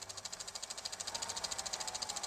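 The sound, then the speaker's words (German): Film projector running, a rapid, even mechanical clatter of many evenly spaced ticks, faint and steady, growing slightly louder over the stretch. “Ich starte dann hier den Filmprojektor.”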